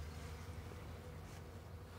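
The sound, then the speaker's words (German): Honeybees buzz around beehives near blooming cherry trees, a faint, steady, low drone that holds without pause and has no talk over it. “So, hier sind wir bei unseren Bienen. Wir haben 48 Völker bekommen.”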